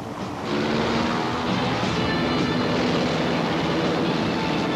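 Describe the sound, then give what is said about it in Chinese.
An aircraft take-off sound effect from a 1987 Cantonese-dubbed TV cartoon: a dense, loud roar that swells in within the first half second and then holds steady to the end. “我准备起飞啦”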